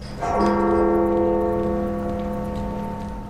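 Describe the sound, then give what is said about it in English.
A church bell tolls for a former Canadian prime minister's funeral at Montreal's Notre-Dame Basilica: one loud strike rings out, then a rich, sustained hum slowly fades with no talk. “18 bells toll to honor Canada's 18th Prime Minister.”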